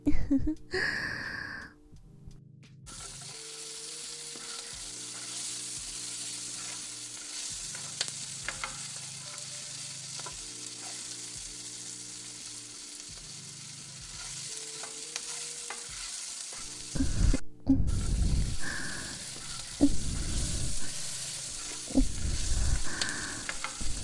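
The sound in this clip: Food frying in a kitchen: a steady sizzle with stirring scrapes runs for most of the stretch, breaks off briefly, then returns with louder clattering stirs. Faint voices can be heard at times.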